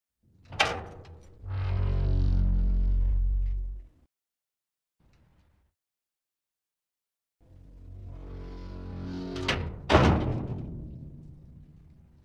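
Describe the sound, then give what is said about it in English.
A heavy iron door with a combination lock is opened: a sharp click, then a long low grinding scrape, a pause, and another scraping stretch that ends in a few sharp knocks. “I will open the door and your chaperone will hold it. That is, in fact, a working combination lock, and it is exactly as heavy as you would expect iron to be.”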